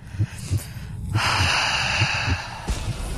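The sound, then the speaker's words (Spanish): A voice imitates creepy, heavy breathing from someone approaching from behind: a few short, rhythmic snorting breaths, then a long, sustained raspy breath, followed by more snorts. “una persona se acerca a ti por la espalda y escuchas exactamente eso, una respiración macabra”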